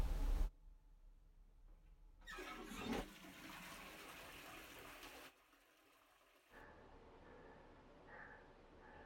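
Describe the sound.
A toilet flushing: a faint rush of water that surges for a few seconds, then drops away and returns as a quieter, steady refill flow, with no voices.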